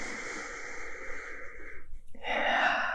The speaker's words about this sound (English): Taking a deep breath where you are, sending energy into the bottoms of your feet, and another breath up into the top of your head